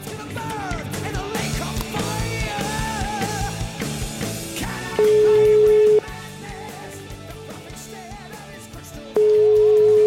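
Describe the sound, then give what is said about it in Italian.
A telephone rings out while a listener is being called. Two long, steady, loud ring tones, each about a second, follow a busy stretch of other tonal sound, with a gap between them. “Gli dai una telefonatina.”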